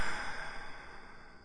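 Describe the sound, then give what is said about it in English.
A gentle breath, soft and unforced, is heard as a quiet airy exhale that fades smoothly over a second and a half, with nothing else around it. “I want to encourage you to go ahead and take a nice gentle breath. Me too.”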